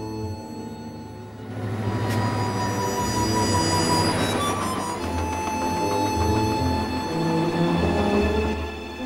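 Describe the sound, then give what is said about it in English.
A freight train crosses a railway bridge over a flowing river, producing a continuous heavy rumble with sustained metallic ringing tones. The sound swells in loudness after the first moments and stays steady. “A freight train travels along a railway bridge over a flowing river.”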